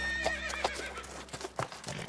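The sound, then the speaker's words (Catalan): A horse whinnies with a shrill, wavering neigh while hooves clip-clop in an uneven rhythm underneath. “Don Quixote rides a horse called Rocinante. Rocinante, o Rocinante, és el nom del cavall que munta en Don Quixot.”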